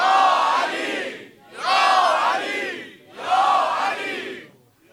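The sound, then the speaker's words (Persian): A crowd at a religious gathering shouts "Ya Ali" three times in loud, unison bursts, each drawn out and separated by brief dips. “بلند سه بار بگو یا علی.”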